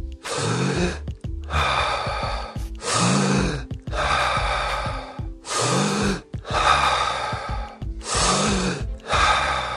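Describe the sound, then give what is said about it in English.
Deep rhythmic breathing for a breathing exercise, many loud, airy breaths drawn in and pushed out at an even, quick pace, each a rushing burst separated by brief pauses, with no talk. “basically we're going to do nice deep breaths at about this rate.”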